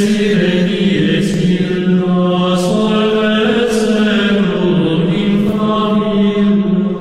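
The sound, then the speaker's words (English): Gregorian chant of the Dies Irae, voices singing slow, sustained melodic lines at full volume, with brief breaks between phrases. “So it started as this old Gregorian chant from back in, I think it's 1230. So it sounds like this is the Gregorian chant.”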